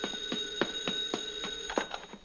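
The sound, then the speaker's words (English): A telephone bell rings in a fast run of repeated metallic strikes, a steady clattering ring heard alone with no talk over it. “The phone”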